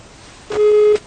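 A telephone busy tone sounds as a caller on a phone-in line is disconnected: one steady, low-pitched beep lasting about half a second, loud and clear.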